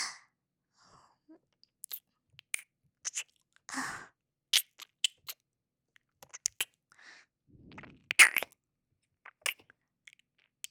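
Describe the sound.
Wet mouth sounds of nibbling and licking on ears in ASMR come as many short, crisp clicks and smacks. Quiet gaps separate them, with a few longer, softer breathy bursts in between.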